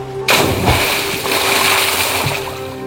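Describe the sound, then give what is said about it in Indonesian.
Splash of a wooden boat being let go into the water: a sudden loud onset, then sustained rushing, churning water over a low rumble. “Begini, kau bisa bantu saya kasih turun perahu ini, kah? Bisa, Pace. Kalau gitu, ayo toh angkat sudah. Satu, dua, tiga. Lepas.”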